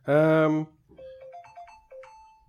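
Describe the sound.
Phone message notification tone: a short melody of a few bright, chiming electronic notes stepping up and down, fairly soft, following a brief voiced sound.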